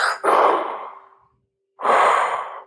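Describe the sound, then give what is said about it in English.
A voice imitates heavy mechanical respirator breathing: two long, harsh, hissing breaths separated by a short pause, each with a low, steady hum running underneath. “I could hear the breath of the breathing of Darth Vader in my mind. It was like,”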